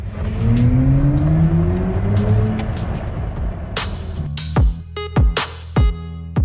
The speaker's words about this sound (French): BMW introduit sur ce modèle des sons artificiels qui ont été créés en partenariat avec le compositeur de musique de film Hans Zimmer. En mode sport notamment, ça va vraiment booster les sensations de conduite.